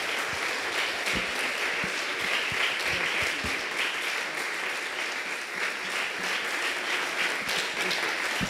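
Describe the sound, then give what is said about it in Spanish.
A standing audience gives sustained applause to welcome a guest on stage, a dense, even wash of many hands clapping that holds steady and loud for the whole stretch, with no talk over it. “quiero que nos pongamos de pie y recibamos con un fuerte aplauso a nuestro amigo, el maestro Juanito”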